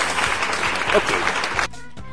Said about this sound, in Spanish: gracias al público que está aplaudiendo. No lo ven ustedes porque está al otro de la cámara, pero tenemos público en vivo.